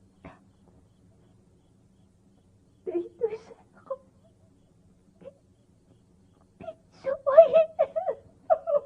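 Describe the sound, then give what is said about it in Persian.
A girl crying: faint whimpering sobs break out in short scattered bursts with long quiet gaps, ending in a louder run of wavering, moaning wails. “چرا گریه میکنی دختر جان؟”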